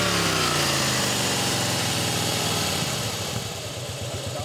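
A vehicle engine roars at steady high revs during a roadside vehicle check, then the throttle is released. The note eases off into a rougher, pulsing burble over the last second or so. The engine stays loud throughout and no talk is heard.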